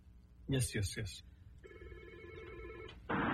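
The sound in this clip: A telephone ringing with an incoming call to a radio show: a voice speaks briefly, then a steady warbling electronic ring sounds for over a second before a louder burst of noise cuts in.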